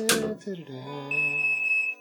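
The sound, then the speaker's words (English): Smoke alarm going off from burnt pizza in the oven, a steady high shrill tone sounding for the second half under voices. “the alarm's gone off again. What could it be? Just turn the oven down”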